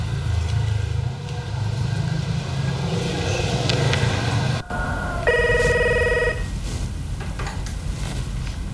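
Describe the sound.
A telephone ring tone sounds during a call back: one steady, bright, multi-toned burst lasting about a second, rising out of constant low rumbling background noise.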